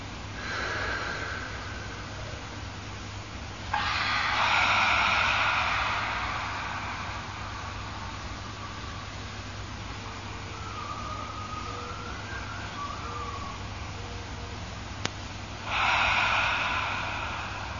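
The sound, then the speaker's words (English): Deep breaths with audible exhales in a guided breathing exercise: two long, airy rushes of breath separated by a quiet pause of several seconds, moderately loud, with no talk. “don't be afraid of making noise with the exhale. Three full, deep breaths.”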